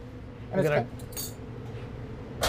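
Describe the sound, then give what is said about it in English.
A serving dish for creamy burrata being picked up and handled: a few light clinks and a brief bright rattle over a quiet, steady background. “So we take this dish here, just like so.”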